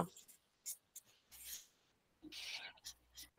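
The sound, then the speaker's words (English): Someone writing, as part of a guessing game: faint scratchy strokes come in a few short bursts, with soft talk between them. “okay. I think I know what she's writing, but I don't know if this is it.”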